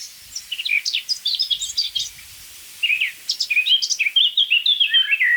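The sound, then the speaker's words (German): A Eurasian blackbird sings from a free-standing oak tree in two loud phrases of quick, varied whistled and warbled notes, with a short pause between them. “in der über uns rauschenden Eiche, eine schöne freistehende Eiche, gibt es sich die Amsel von ihrer virtuosesten Seite.”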